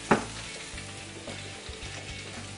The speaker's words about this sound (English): we got the pan nice and hot. Okay. I put olive oil spices on here. Olive oil face down. One at a time.